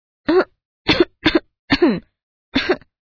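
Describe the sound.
A woman gives five short, dry, deliberate coughs, each a brief burst separated by silence, spaced fairly evenly and heard alone.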